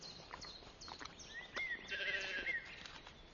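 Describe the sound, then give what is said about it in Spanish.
Faint sheep bleating from sheep of all sizes grazing on lush pasture with juniper by the eastern shore of the Müritz. A short wavering bleat or two rises over soft, low background rustle. “Las ovejas de todos los tamaños comen hasta llenarse.”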